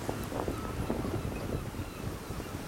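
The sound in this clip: Wind at sea aboard a Class 40 sailboat as it rises while the boat turns into it to hoist the mainsail: a steady, full roar of wind noise with faint low rumbling, and no voices.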